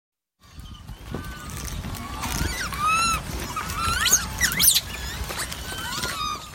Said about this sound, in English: This is On Point, and that is the sound of rhesus macaques on the island of Cayo Santiago off the coast of Puerto Rico.